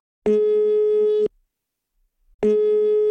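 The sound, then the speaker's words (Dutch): A telephone call tone sounds while a call is placed: two steady, buzzy, mid-pitched tones, each about a second long, separated by a short silence. “Ik ga haar bellen.”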